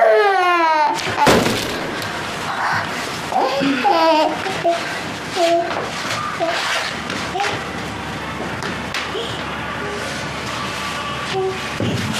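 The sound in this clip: A baby cries in rising and falling wails, loudest in the opening second, while a woman talks over the crying at several points.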